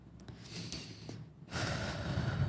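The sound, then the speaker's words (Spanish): A person breathes in and out audibly, soft airy breaths with a brief snort-like puff, then a louder, sustained breath near the end. “Yahweh es que la pronunciación original en hebreo suena como el sonido que uno eh, reproduce al respirar, al inhalar y exhalar. A ver, inhalar y exhalar acá”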